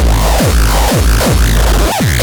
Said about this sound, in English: Does your drum machine sound like this? You need it to sound like this.